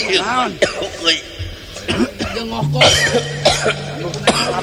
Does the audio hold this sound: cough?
yes